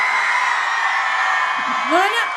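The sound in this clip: An audience section shouts together at a live event on a host's cue, a loud, dense, sustained roar of many voices that holds steady for over two seconds without a break.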